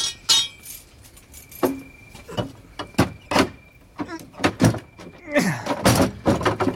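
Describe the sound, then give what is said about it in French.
A door with a tough lock being taken off its hinges gives a series of sharp metallic clanks, knocks and rattles in an irregular run, with a jingling, key-like clink among the louder hits. “Il s'est fait poser une serrure au coriace. Tant pis pour lui. Je dégonde.”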